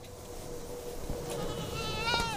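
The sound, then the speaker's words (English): A farm animal bleats toward the end on a small farm of about twenty acres near a large airport, rising over a steady broad roar of background noise that runs throughout. “Jets from nearby Charlotte Douglas International Airport interrupt the sounds of animals and insects at Sheldon Scruggs Farm”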